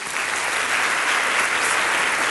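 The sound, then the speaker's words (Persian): Dense applause from a seminar audience, loud and steady throughout with no pauses. “دست خوب براش بزنید”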